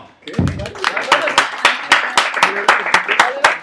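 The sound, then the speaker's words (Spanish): An audience claps at a live fan talk, with sharp claps in a steady, quick rhythm that carries on over voices underneath. “¡Un aplauso!”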